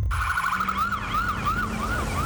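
Ambulance siren in Mato Grosso wailing alone, loud and continuous, in a steady repeating up-and-down sweep.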